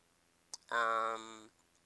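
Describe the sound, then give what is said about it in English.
A single sharp mouse click opens an online article, followed by a short, steady humming tone that holds for under a second and then stops. “I'll just click on it and expand it here.”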